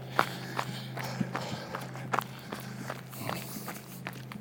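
Running footsteps of a jogger on an out-and-back run along a shaded street. Many steady, rhythmic footfalls beat over a constant low hum.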